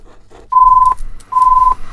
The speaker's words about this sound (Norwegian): Og der ringer det.